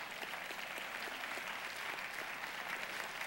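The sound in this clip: Sustained, dense applause from a church audience, a steady wash of many hands clapping at an even, loud level for the whole stretch with no clear pauses.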